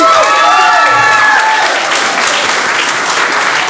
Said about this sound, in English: Let's give it up for Maddie Cox.